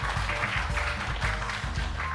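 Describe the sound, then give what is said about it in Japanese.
Audience applause after a first-part talk at an investor relations seminar, a steady, dense wash of many hands clapping that holds at an even level for the whole stretch with no voices on top. “皆さん盛大な拍手をよろしくお願いいたします。”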